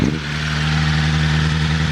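A four-cylinder sports car engine of roughly 215 horsepower revs with the gear out, giving a loud, steady, continuous drone with a strong low hum that barely changes over two seconds. No voices.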